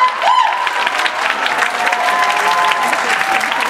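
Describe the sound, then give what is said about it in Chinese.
Applause from an audience welcoming a speaker to a talk on purchase annuities. The clapping is steady and fairly loud and lasts the whole clip, with a brief whistle-like tone near the beginning. “我们掌声欢迎浮游生物龙”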